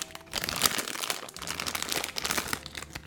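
Plastic wrapping of a snack package crinkles and rustles as it is pulled open, with many faint, irregular crackles continuing throughout.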